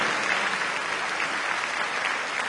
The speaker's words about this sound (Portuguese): aplauda o Senhor. Ele é o nosso rei.